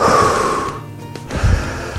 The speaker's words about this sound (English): Now, you can't do that for every breath, so you do a wee half breath out and then back in, and a wee half breath out and back in.